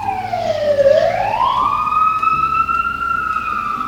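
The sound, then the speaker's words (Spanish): An emergency vehicle's siren responding to a nearby crash in which a motorcycle hit a taxi. One loud wail dips in pitch, climbs again and then holds a steady high tone. “Acá ruido de sirena. Hubo un choque acá al lado, ¿sabes? Una moto.”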